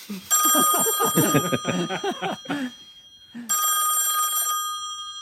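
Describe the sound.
A telephone bell rings to place a call, in two long, bright, loud bursts with a short gap between them.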